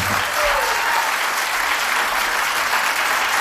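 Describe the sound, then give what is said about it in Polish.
Applause from an audience thanking a guest at a live radio show: a dense, steady wash of many clapping hands that holds at an even, fairly loud level throughout. “Dla pana Krzyśka brawa.”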